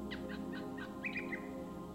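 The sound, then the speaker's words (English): Birds chirp and sing on a sunny day, a few quick high chirps and a short bright trill that sit faintly over a steady low hum. “The sun is shining, the birds are singing.”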